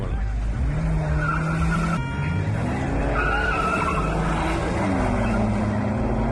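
Cars roar and tires skid in an illegal street race. Loud engines and squealing rubber blend into a continuous roar, with sustained whining tones, one of them sweeping upward near the end.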